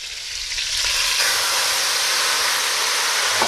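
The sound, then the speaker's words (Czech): Slivovitz plum brandy poured into a hot pan of meat for flambéing sets off a loud, bright sizzle that swells within the first half second and then holds as a steady, dense frying hiss with no voices. “tak já tam trošku slivovice a oflambuju to. Takže zalijeme”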